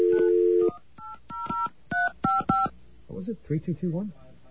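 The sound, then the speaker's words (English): A steady dial tone gives way to a quick run of touch-tone beeps as a phone number is keyed in, then a person talks. “Did I dial it wrong? I dialed 355.”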